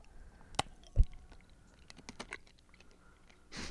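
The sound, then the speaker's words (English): Biting and chewing of food: a few faint, crisp crunches and clicks, with one heavier bite near the start and a soft crackling burst at the end. “Maybe you can go ahead and give it a little bite. Yeah, chomp it a little bit.”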